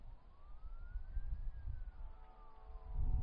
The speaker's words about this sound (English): listen to that, that's a, I believe that's a fire truck, and a police car